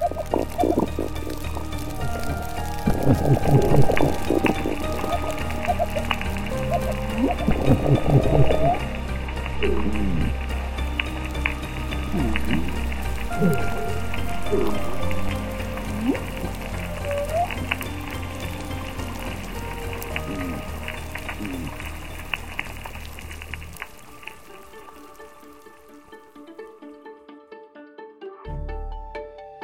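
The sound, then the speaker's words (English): A noisy, healthy coral reef underwater soundscape: a dense, constant crackle like frying, scattered low grunts and a few rising whoop calls, the crackle thinning and quieting toward the end. “That hope can come from keeping these underwater communities healthy and thriving. And in the case of corals, that means noisy.”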